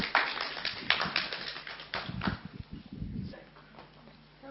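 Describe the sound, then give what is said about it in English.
An audience applauds to welcome a speaker, with many quick overlapping claps, fairly faint, that thin out and fade after about three seconds. “So, let's welcome her, give her a big hand.”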